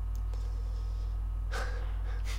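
A little nasal snort, heard as a couple of short breathy bursts over a steady low electrical hum, the first one stronger.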